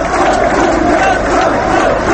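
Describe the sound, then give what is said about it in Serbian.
Crowd at a political rally applauding and chanting as a speaker is welcomed. The mass of voices and clapping stays loud and dense throughout, with no breaks. “Na skupu je govorio i sin Ratka Mladića, Darko, koji je dočekan snažnim aplauzom i skandiranjem.”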